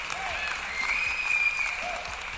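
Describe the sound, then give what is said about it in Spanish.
Applause from a studio crowd, steady continuous clapping mixed with crowd voices and a thin high tonal sound, holding at a moderate level throughout. “¡Aplausos para él!”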